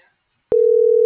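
A telephone line tone sounds while a number is dialed. After about half a second of silence, a single steady mid-low pitch comes on and holds unbroken to the end, loud and alone with no talking.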